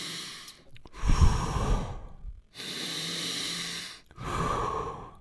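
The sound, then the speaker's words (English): Deep breathing from a breathing exercise for energy and mood: a few long, loud breaths drawn in and pushed out, separated by short silent gaps, with hissing, sighing air and no talk. “we're going to inhale into our stomach first, expand that breath into our chest and then nearly into our head. And then we're going to keep in that flow and breathe out quickly too. It's going to sound something like this.”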